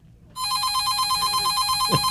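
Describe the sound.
A telephone rings with an incoming call during a phone-in pledge drive: a bright, rapidly warbling electronic trill starts abruptly and keeps ringing steadily and evenly to the end, with no voices over it.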